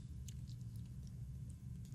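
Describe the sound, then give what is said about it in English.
Nicotine gum being chewed, faint soft wet clicks and smacks spaced irregularly over a steady low hum. “Nicotine gum. Chewing gum, it's so unprofessional.”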